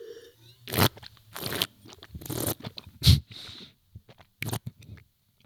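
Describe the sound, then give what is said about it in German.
Slurping a big sip of a drink while tasting it: a few short, noisy bursts of air drawn through liquid, separated by quieter gaps and soft mouth sounds, fairly faint overall. “Aber für alle, die noch da sind, dieses Schlürfen, das muss man natürlich nicht im Luxusrestaurant machen.”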